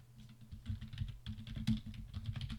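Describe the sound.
Rapid typing on a computer keyboard: many quick, irregular key clicks in uneven bursts, fairly faint, with no voices.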